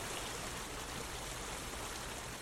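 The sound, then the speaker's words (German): A small forest brook flows with a steady, even rushing and burbling of water. The sound is continuous and fairly faint throughout, with no voices. “nachdem du ja ein bisschen reingegangen bist in den Wald, kommst zu diesem Bächlein ein bisschen näher.”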